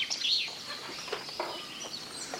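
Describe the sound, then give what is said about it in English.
A blackbird sings a brief, high chirping phrase at the start, followed by faint, scattered soft clicks and rustles. “Blackbird singing in the dead of night, in the early morning, and the middle of the afternoon, because basically he never shuts up.”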